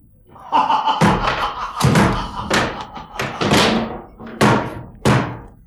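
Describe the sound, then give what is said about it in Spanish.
Heavy knocks on a door, a series of loud, uneven thuds with sharp attacks and short gaps between them. “Alguien llama.”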